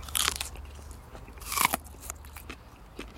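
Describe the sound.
Crisp bites into a raw, sweet, pink, top-shaped onion cut in half: two sharp, loud crunches a little over a second apart, followed by quieter crackling chews, with no talk.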